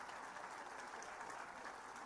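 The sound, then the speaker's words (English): Audience applause at an awards ceremony: a steady wash of many hands clapping, even and unbroken from start to end. “Round of applause for all five.”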